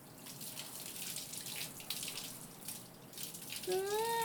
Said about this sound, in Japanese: こうして鼻歌歌いながらだと早く流し終わる気がするんだ。頭皮は少しマッサージしながら流して、